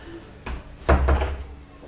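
A door is pushed shut with a soft knock followed by a heavier, dull low thud that fades over about a second.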